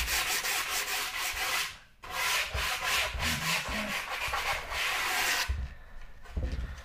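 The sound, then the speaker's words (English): Sandpaper rubbed by hand along an edge makes a loud, rapid run of gritty back-and-forth scratching strokes, broken by two short pauses. “It would have been better if I had a sanding knife, but that's okay. The sandpaper literally is sand stuck on paper with some glue.”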